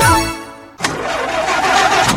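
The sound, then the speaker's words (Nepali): An old, broken-down car's engine starts abruptly after a brief musical tone fades, catching and settling into a loud, steady, rough mid-pitched running hum. “होइन कतिन्जेलसम्म यस्तो बिग्रिएको गाडी चलाउनु अब त अर्को गाडी लिनुहोस्”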